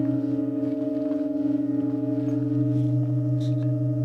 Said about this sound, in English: It doesn't sound especially like it's coming from the organ. It seems like it's almost coming out of the walls.